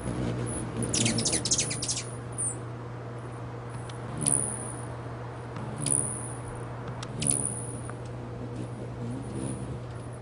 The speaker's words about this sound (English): There's a hum that's caused by their wings, but they also have like a little chirp.